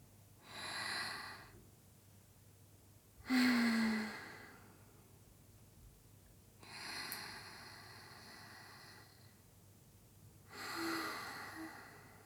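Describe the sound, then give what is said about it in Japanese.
Deep, slow breathing, four long, soft, airy rushes of breath spaced a few seconds apart, quiet and without talk. “ちょっと深呼吸してみよっか。”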